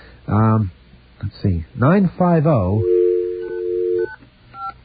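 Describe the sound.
Touch-tone telephone dialing of a long-distance service number: a voice at the start, then a steady tone and a few short, higher beeps.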